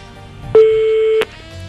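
A telephone tone as a call is dialed: one steady, mid-pitched beep holding for under a second, ending abruptly with a click, followed by quiet background.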